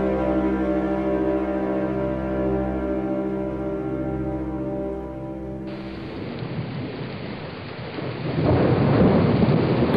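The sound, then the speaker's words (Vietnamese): Heavy rain with thunder sets in after a sustained musical drone stops, the downpour forming a steady, broad wash that swells louder toward the end, with no talk. “Cơn mưa xào xả xích ngày càng lớn thêm.”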